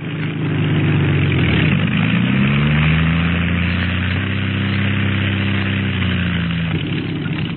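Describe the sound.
A small aircraft engine keeps running after landing: a loud, steady drone, alone, whose pitch dips and shifts a few times.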